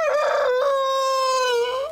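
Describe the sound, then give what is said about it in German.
A chicken's drawn-out call on a hen farm: a single loud, steady, tonal cry held for about two seconds, heard alone with no talk. “Fragen wir mal beim Hühnerhof Seidel nach, wie die das machen, dass die Hühner keinen Nachwuchs bekommen.”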